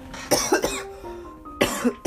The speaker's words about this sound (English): all right, it seems like we're going to have a cough every 2 minutes, because we have three coughs, 6 minutes